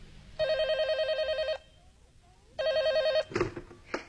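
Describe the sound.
A telephone rings with a warbling electronic trill in two long, evenly spaced bursts, followed by a few brief clicks and handling noises.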